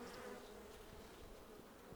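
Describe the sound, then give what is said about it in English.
Swarming honeybees buzz at a hive with queen cells, a dense, steady drone of many wings that holds at an even loudness throughout, with no voices. “Oh my gosh, these bees, and they're swarming.”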